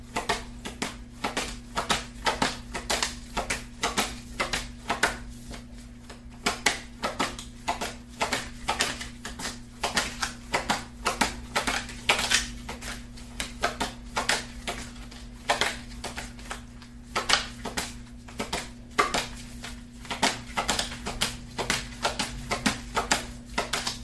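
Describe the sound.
Tarot cards are shuffled in a steady, rapid patter of soft papery clicks that runs on and on without a pause, over a faint, constant low hum and with no voices.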